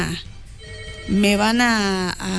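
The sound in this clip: A telephone ringtone signals an incoming call. It is a short tonal melody with rich harmonics that holds one sustained note, bends slightly upward, then breaks off, followed by a brief return of the tone.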